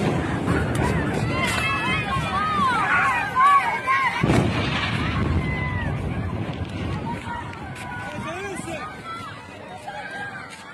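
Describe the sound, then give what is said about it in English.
Airstrike explosions hit apartment towers in western Gaza City amid people shouting. A continuous loud, rumbling roar carries one heavy burst near the middle, with raised, agitated voices throughout. “on September 10th, Israel hit the Taiba Towers in western Gaza City. Instagram user Mohammed Hamouda filmed this clip.”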